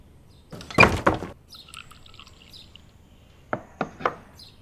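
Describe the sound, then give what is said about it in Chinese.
A door is shut with a heavy, broad thump, and a few seconds later three short, sharp clicks follow in quick succession, with no voices. “把门给我关上。”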